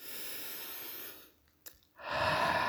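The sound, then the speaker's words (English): A person takes one deep breath, faint and alone. A steady, airy hiss of inhaling is followed by a short hush with a tiny click, then a breathy exhale at similar strength. “Let's take a breath.”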